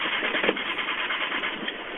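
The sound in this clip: A flooded car engine cranking over and over without catching after gasoline was poured into the carburetor, a continuous rough, churning drone that never fires into a running idle.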